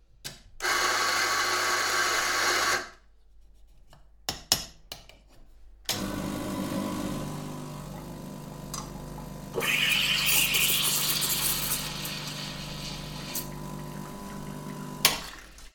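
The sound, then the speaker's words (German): A coffee machine makes coffee: a loud, rough whirring runs for about two seconds, then a few clicks and knocks follow. A long, steady pumping hum with hiss comes next and swells partway through before cutting off. “So, ich würde sagen, wir machen uns noch schnell einen Kaffee und dann geht's los.”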